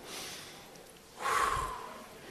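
Deep breathing in and out during a sermon: two soft, airy rushes of breath, the second louder and longer than the first, with no voices.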